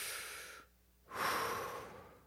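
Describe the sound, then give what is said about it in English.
A deep breath taken in, heard as a long airy inhale that swells strongly after a brief quiet pause and then gradually tapers off. Softer breath noise comes before it, with no talking. “If you want to work through anger, you take in a big breath.”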